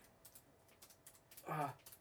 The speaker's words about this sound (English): I'm trying to type that really quick.